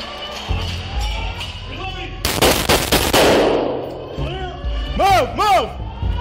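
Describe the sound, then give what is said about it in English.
Police officers fire a rapid, loud burst of many gunshots at an active shooter inside the Covenant Presbyterian School in Nashville, with tense voices heard before and after the volley. “he fired the first five shots, striking the shooter.”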